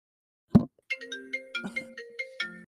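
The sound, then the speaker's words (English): A mobile phone ringtone plays a quick run of bright electronic notes, just after a single soft thump. “someone forgot to silence their phone”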